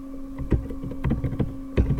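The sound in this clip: Computer keyboard keys pressed to log out of a PC: a few soft, irregular clicks and taps, some in quick clusters and a firmer press near the end, over a faint, steady electrical hum.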